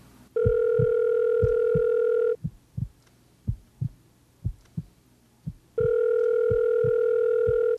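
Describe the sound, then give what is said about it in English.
A telephone rings twice in long, steady electronic tones. Between and under the rings, a slow, loud heartbeat thumps many times. No voices are heard. “The volume increased with every ring of the telephone.”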